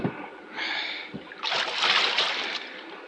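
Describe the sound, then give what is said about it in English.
A wooden paddle splashes and swishes through the water as a boat is rowed quietly across a bay, with two separate watery strokes. The second stroke is longer and fuller than the first. “Quiet! Quiet! One more sound from that paddle, and I will shoot.”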